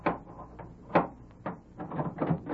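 A door being opened at a house: a few dull knocks and rattling wooden thuds with sharp clicks, moderately loud, with no voices.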